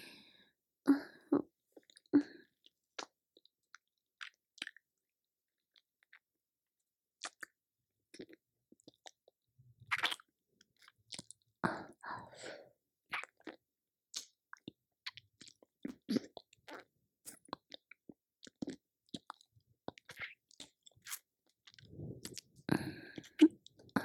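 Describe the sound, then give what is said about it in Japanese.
Soft, wet licking sounds on an upper body: many brief, squishy mouth clicks and smacks, faint and irregular, with short silent gaps between clusters and no talking. “まずは、上半身を舐めさせていただきますね。”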